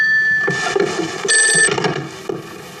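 A telephone ringing before a call is answered: a loud, steady electronic ring with bright tones that sound on and off throughout, with no voices over it.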